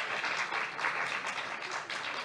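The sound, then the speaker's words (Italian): Audience applause welcomes a literary translator introduced as a guest at a book event, with dense, steady clapping that holds evenly throughout with no voices over it. “Un applauso.”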